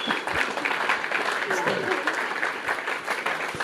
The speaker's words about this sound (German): Sie macht das echt super. Echt spitze. Der Applaus gehört jetzt dir.